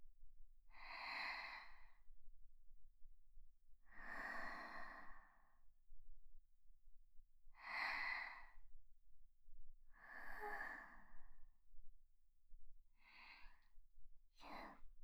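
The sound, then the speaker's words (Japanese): Deep, slow breathing, with six breathy rushes of air spaced evenly apart. The first four are long and full, and the last two are shorter and quicker. The breaths are clear and sound alone, against near silence. “深呼吸して”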